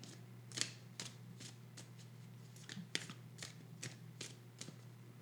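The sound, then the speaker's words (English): Tarot cards being handled and flipped make many faint, crisp ticks and light snaps at an irregular pace, each brief and papery against a quiet low hum. “I guess we'll flip a card about the tweets.”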